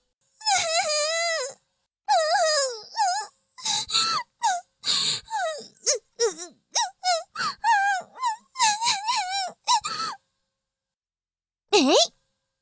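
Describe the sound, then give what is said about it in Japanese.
Fake crying: a voice wails in two long drawn-out bursts, then breaks into many short, choppy sobbing cries with wavering pitch, pauses, and ends on one final short wail. “嘘泣きはずるい？”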